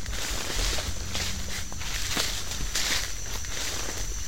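Footsteps walking into a tropical forest come as a few soft, irregular steps. A dense, hissing wall of forest ambience stays loud throughout.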